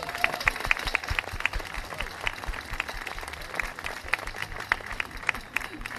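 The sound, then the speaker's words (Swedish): A studio audience applauds and cheers as a guest walks onto a Swedish TV talk show set, with dense, steady clapping throughout and crowd voices mixed in. “Det var så mycket folk. Det är ju det, alltså, de jublar på ett nytt sätt när du kommer in.”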